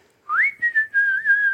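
A person whistles a single sustained high note that slides upward at the start, then holds steady with slight wavering. Clear and alone.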